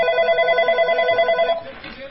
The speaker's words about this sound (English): Hey, someone's calling in. I wonder who this could be.